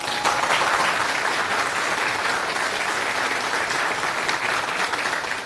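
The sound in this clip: Audience applause welcoming a speaker at a programming conference: dense, even clapping that holds at a steady level throughout, with no pause or voices over it.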